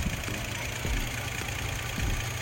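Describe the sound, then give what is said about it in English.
A 2011 Kia Sorento engine with about 400,000 km idling, a steady low rumble that runs evenly and continuously with no voices over it. “engine runs good, no cracks or damaged seals or anything”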